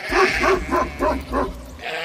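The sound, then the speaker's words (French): Sheep bleating during shearing at a sheep farm on the Ardèche plateau in southern France, above 1200 metres. A series of several loud, wavering, nasal bleats follows in quick succession, with brief gaps between the calls. “commence donc forcément par la tonte du mouton”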